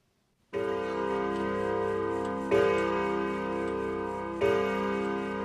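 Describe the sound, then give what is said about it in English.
A clock strikes nine o'clock. Three loud, resonant bell strokes fall about two seconds apart, each ringing on and slowly fading, with no voices. “It's 9 o'clock and Kevin doesn't have time to eat.”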